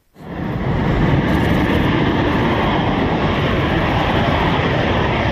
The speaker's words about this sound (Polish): Bielika, maszynę M346. Nowy myśliwiec bojowy, który trafił stosunkowo niedawno do polskiej armii, brzmi tak.